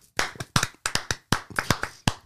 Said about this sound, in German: Das war jetzt der Applaus einzig und allein nur für mich.